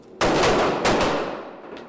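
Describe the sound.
Gunfire at Darnell's indoor gun range near Bloomington, a few sharp, loud cracking reports with rough, decaying tails trailing off between them.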